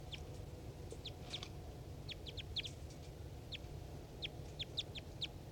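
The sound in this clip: Wild bird calls ring out as many short, high chirps in small irregular clusters over a steady low rumble.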